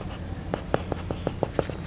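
A pencil or pen draws buildings on paper in a quick run of short, scratchy strokes, about one every fifth of a second, quiet and alone.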